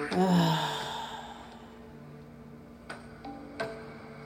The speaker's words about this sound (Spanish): O inhalando por la boca, jalando aire y sacándolo por la boca.